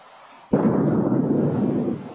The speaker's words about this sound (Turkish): Atmosferde infilak eden dev meteor ABD'lileri korkuttu.